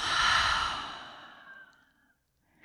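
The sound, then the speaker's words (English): Long slow breath out during a guided reflection exercise, a loud airy exhale that gradually fades to silence, then a brief inhale starting at the very end. “let's take a long breath in and out.”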